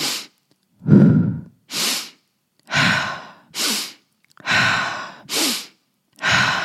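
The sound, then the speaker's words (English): Slow breathing, in through the nose and out through the mouth, gives eight separate airy breath sounds in a steady in-and-out rhythm, each breath a soft hiss divided by short silences. “So we're going to start off with a nice, easy inhale through the nose. Exhale out the mouth.”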